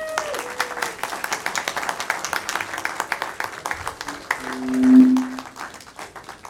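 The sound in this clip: An audience claps to welcome a speaker. The dense, steady applause runs throughout and swells late before easing off.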